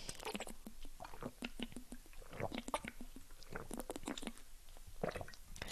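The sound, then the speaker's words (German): Someone takes a sip of a drink on a hot day, with soft, close, wet mouth clicks, swallows and smacks repeating irregularly at a faint level, with no talking. “Ich muss mal wieder einen Schluck trinken. Es ist gerade einfach zu warm.”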